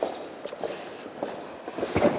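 Footsteps cross onto a different floor covering in a parliament building, a few soft, uneven treads against a faint background hum.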